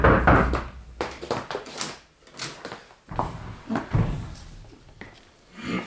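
A door bolt being forced in a drama scene: a run of dull thumps, knocks and rattles, irregular and uneven in strength, with short quiet gaps between the bumps.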